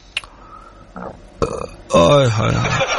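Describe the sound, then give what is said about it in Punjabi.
A loud, drawn-out burp with a rough, croaky tone, following a few short bursts of sound and voices. “ਕੀ ਖਾ ਲਿਆ ਡਕਾਰ ਮਾਰੀ ਜਾਣੇ ਉਹ ਡਕਾਰ ਮੈਂ ਮਾਰਦਾ”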